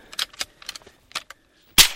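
A rifle shot aimed at an Australian brush-tailed possum on a small farm cracks out as one loud, sharp blast at the end, after a few faint clicks and rustles.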